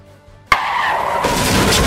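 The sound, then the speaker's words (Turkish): Tires squealing as a car skids out of control after a two-car collision in Bayrampaşa, Istanbul. The screech starts suddenly, stays loud and high, and grows noisier toward the end. “İki otomobilin çarpışmasıyla kontrolden çıkan araç kaldırımdakilere dehşet yaşattı.”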